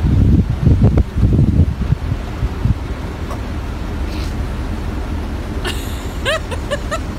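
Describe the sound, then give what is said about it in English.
Wind blowing outdoors, buffeting the microphone with a low, gusty rumble in strong bursts over the first few seconds, then a steadier, softer rush. “Sounds like you're throwing buckets of the wind out there.”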